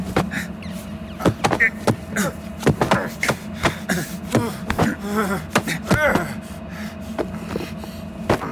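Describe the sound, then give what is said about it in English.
A stuck door rattles and is then opened, with many clunks, clicks and thuds in an irregular rhythm mixed with brief grunts and breathy vocal sounds. “Boss, the door appears to be stuck. Can you open it? It worked perfectly fine a moment ago, you incompetent talesman. Look, see, it opens.”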